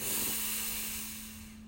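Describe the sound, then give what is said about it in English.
Deep breath in during a guided breathing exercise, a long, steady, airy hiss that slowly tapers off over less than two seconds, with a faint low hum beneath. “We'll do a long extended breath. Hold slightly.”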